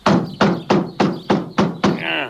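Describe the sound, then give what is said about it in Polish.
Knocking on a door: six loud, evenly spaced knocks in a steady rhythm, each with a short ringing decay. “Zastukam jeszcze raz.”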